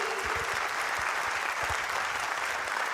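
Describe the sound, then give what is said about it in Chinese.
An audience claps in sustained, even applause, a dense wash of many hands striking together that stays at a constant level throughout without a clear break. “感谢大家默默掌声”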